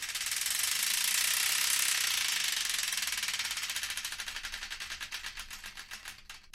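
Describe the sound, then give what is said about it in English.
A prize wheel spinning: a fast, continuous ticking clatter that gradually slows into separate, evenly spaced clicks as the wheel winds down. It fades slightly toward the end and is heard alone, without voices. “we've got to spin the Wheel of Destiny to find out which one.”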